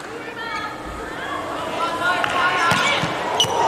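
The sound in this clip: A volleyball served during a China team match: a few sharp thumps of the ball over steady crowd noise, with a voice talking near the start.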